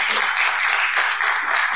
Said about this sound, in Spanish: También un aplauso para Don Carlos.